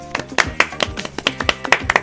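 Scattered clapping from a small audience at a German comedy show: a few people clap unevenly in sharp, separate bursts. The claps are spaced irregularly and never build into a dense roar.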